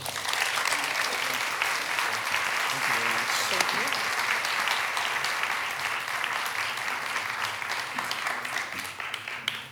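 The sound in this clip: Sustained audience applause welcomes author Nam Le onstage at a live event. The clapping stays steady and dense for the whole stretch, with no voices rising above it.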